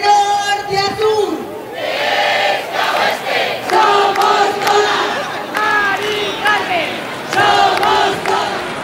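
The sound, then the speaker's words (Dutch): People in Spanish cities protest in the street against high prices for renting and buying homes. A large crowd shouts and chants in loud, repeated bursts, with piercing individual voices rising over a steady roar. “Tienduizenden mensen zijn er op straat gekomen tegen de hoge prijzen om woningen te huren of te kopen.”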